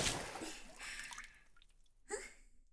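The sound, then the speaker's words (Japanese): Warm water is poured over hair during a rinse: a faint, soft splashing hiss that fades, then a brief second pour near the end. “それではお流しいたしますね。 もうちょっとこっちの方にもかけますね。”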